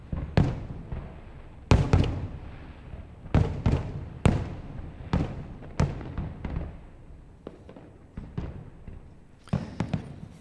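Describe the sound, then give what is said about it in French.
Fireworks from a festival on an island in Montreal, heard from the opposite shore of the Saint Lawrence River. Many sharp, booming bursts come at an irregular pace, each followed by a short decaying rumble. “Le festival de feux d'artifice de Montréal a lieu sur une île en face du centre-ville de Montréal et qui est sur l'autre rive du fleuve Saint-Laurent. Et c'est ce qu'on entend depuis cette rive.”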